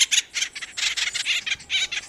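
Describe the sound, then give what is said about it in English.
Acorn woodpecker calls: many harsh, squawking notes in quick, uneven bursts, fairly loud and bright, with no voices. “the acorn woodpecker is an industrious bird.”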